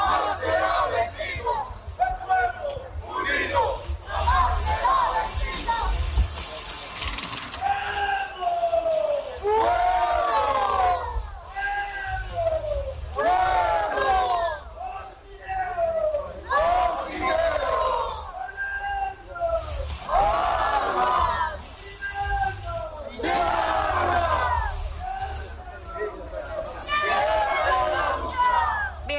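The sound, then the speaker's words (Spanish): Protest march crowd in the streets after descending from El Alto, with many voices chanting and shouting in repeated phrases that carry on loudly and continuously. “Bien, llegó la movilización de diferentes sectores que han descendido desde Ciudad del Alto, sectores sociales, Distrito 7, Distrito 8, Distrito 5, entre otros también, como le anunciábamos más temprano. Escuchemos.”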